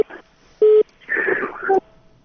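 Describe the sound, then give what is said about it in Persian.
Telephone line tones as a call drops during a radio phone-in: a loud, steady beep, then a noisy, garbled burst ending in a second brief tone. “خطیبی صاحب ټلیفون قطع شد. تماسم قطع شد.”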